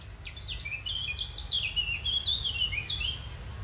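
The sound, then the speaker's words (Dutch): Twittering calls of two barn swallows flying over: many quick, high chirps and short trills in an irregular run over a steady low background noise. “Wat is dat? 2 boerenzwaluwen.”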